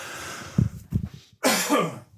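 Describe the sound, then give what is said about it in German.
A person coughs a few times: two short throaty bursts come first, then a longer, harsher rasping cough, with no talk around them. “Entschuldigung. Husten. Genau, da kommt mir sofort der Hustenreiz.”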